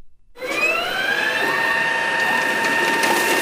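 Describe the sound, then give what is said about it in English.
High-speed ballot scanners processing mock mail-in ballots during voting-machine testing before a primary: after a brief pause, a steady mechanical whir starts up with whining tones and faint rapid ticking, continuous to the end. “The high-speed scanners were fed roughly 1,200 mock mail-in ballots.”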